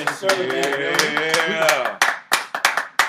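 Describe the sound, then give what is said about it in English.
A voice sounds for the first two seconds, then a round of applause from a few people follows as several sharp, separate hand claps in an uneven rhythm. “Let's give yourself a round of applause for”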